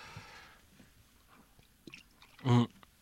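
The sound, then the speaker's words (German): A sip of beer ends in one short, loud gulp near the close, after a stretch of faint, scattered small mouth and handling noises. “Moment, da muss ich gerade mal einen Schluck Bier nehmen.”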